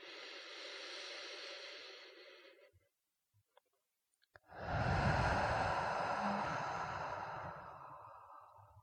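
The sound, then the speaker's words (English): Slow, deep breathing gives two long, airy breaths separated by a short silence, the second fuller and more drawn out than the first. “breathing out a little bit longer. Do it with me. Breathing in.”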